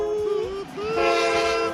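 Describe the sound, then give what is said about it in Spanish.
A classic movie-style train sound effect: two loud, sustained whistle blasts with a brief gap between them sound over a steady, rolling rail rumble and clatter. “los trenes estos míticos de las películas que hacen ruidito con todo”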